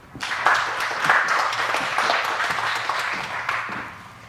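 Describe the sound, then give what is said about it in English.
Audience applause welcoming the next speaker at a software development conference, a dense wash of clapping that swells early, holds steady and slowly tapers off. “Let's give you a hand.”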